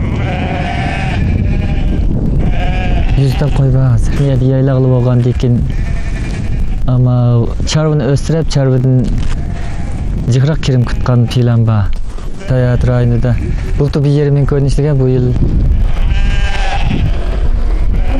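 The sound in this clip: A flock of sheep bleats on a high early-autumn pasture beneath the Kunlun Mountains at nearly 4,000 metres, with many loud, overlapping wavering calls over a constant background rumble.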